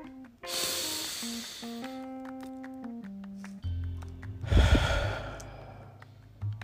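Two long, deep breaths, each a soft airy rush of air, rise above steady, sustained musical tones. The second breath is slightly louder.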